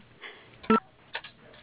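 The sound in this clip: A single telephone keypad tone from a key pressed on an automated phone menu: one short, loud, steady beep that stands out sharply against a quiet background hiss.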